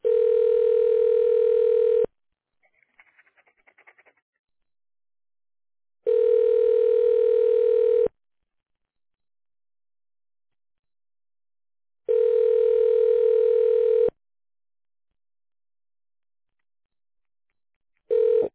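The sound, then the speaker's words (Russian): A telephone ringback tone plays while a call is transferred to a secretary. The steady electronic tone comes in bursts of about two seconds with roughly four-second silences between them: three full bursts, then the start of a fourth. “Ваш звонок переводится на секретаря.”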